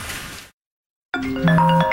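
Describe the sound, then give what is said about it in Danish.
A telephone rings unanswered: after a short burst of noise and a brief silence, a bright electronic ring of several stacked tones sounds clearly. “Det her er lyden af en kunde, der ringer forgæves, og som nu finder nummeret på en konkurrent.”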